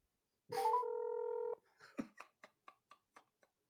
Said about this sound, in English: I'm going to call it right now. Oh, shit. Okay, let's see. I'm going to put it on speakerphone.